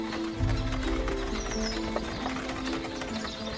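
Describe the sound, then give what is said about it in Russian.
Hooves clip-clop steadily as a horse pulls a cart through a forest, a continuous rhythmic clatter of moderate loudness with sustained tones running underneath. “Повозка движется по лесу.”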